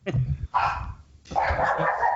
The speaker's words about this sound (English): Excuse my dog. Ah, somebody else is chiming in for sure.